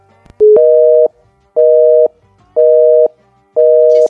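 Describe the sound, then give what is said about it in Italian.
Telephone busy signal on redialing a call: four loud, steady, evenly spaced beeps of the same pitch, the first preceded by a brief lower tone. “E noi quindi non la rifacciamo. Rifacciamo la chiamata.”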